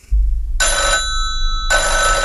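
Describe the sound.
A telephone rings for an incoming call: two bright trilling bursts of the bell, the first short and the second running to the end, with a brief low thump at the start.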